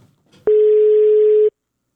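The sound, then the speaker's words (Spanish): A telephone tone sounds while a caller places a call: one loud, steady, even-pitched tone lasting about a second, preceded by a faint brief click, then silence. “me estoy enlazando rápidamente con el maestro. A ver, maestro, ahí le estoy marcando al maestro Cheche Meléndez Hermosillo.”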